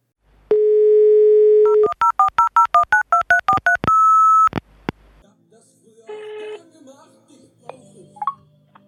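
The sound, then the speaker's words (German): A telephone call is placed: a steady dial tone, then a rapid run of about a dozen touch-tone key beeps, then a brief steady tone. Faint voices and noise follow. “Ich werde jetzt gleich mal die Mama anrufen”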